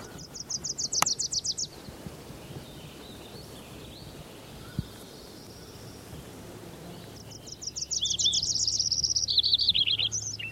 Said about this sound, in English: I think there was a Wilson's warbler in there.